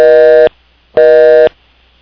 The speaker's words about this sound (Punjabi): Hello, ਹਾਂਜੀ ਤੁਹਾਡੀ line disconnect ਹੋ ਗਈ ਸੀ।